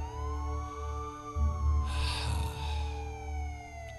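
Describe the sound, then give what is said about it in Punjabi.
A police car siren wails as a faint, sustained tone that slides downward in pitch over a low rumble. “Police ਦੀ ਗੱਡੀ ਸੁਰਫੇ ਨੂੰ ਚੁੱਕ ਰਹੀ ਹੈ”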